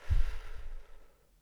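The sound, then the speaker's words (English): A deep cleansing breath taken during a guided meditation, a single soft, airy inhale and exhale that swells briefly and then trails away into quiet. “Big inhale, exhaling, cleansing breath.”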